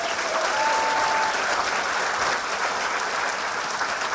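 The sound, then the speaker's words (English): An audience claps to welcome a cosmology correspondent from The New Scientist as he comes on stage. Many hands clap in a steady, full round of applause at an even level from start to finish. “will you please welcome the cosmology correspondent from The New Scientist. It's Marcus Chown, ladies and gentlemen.”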